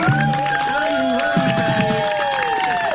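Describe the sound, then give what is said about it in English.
A hometown crowd cheers at a race finish line, a steady wash of cheering and some clapping, with a person talking over it. “As they got to the finish line, Dean was able to cross on his own 2 feet, leaning on his walker as his hometown cheered.”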